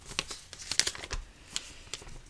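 A sheet of paper is picked up and handled, giving soft rustles and a few light, scattered crinkles and crackles. It is faint and no one speaks.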